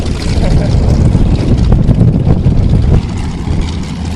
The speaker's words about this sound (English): Do you ever get tired of that sound? Never. I love it. It's a very distinct sound, as you can hear, the Nanchang.